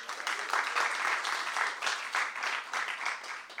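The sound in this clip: Applause from an audience welcoming readers at a literary magazine's reading evening, continuous clapping that swells and dips in loudness in uneven waves without a break.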